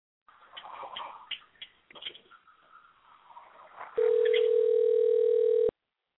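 A telephone line rings during a call: one steady, even electronic tone held for under two seconds, following a stretch of muffled, irregular sounds.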